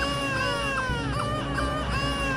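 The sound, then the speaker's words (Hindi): Wavering infant cries wail over a dense, sustained background, a horror-story sound effect of a baby crying that runs continuously without pause. “Neha को हर कमरे से बच्चे की रोने की आवाज आने लगी।”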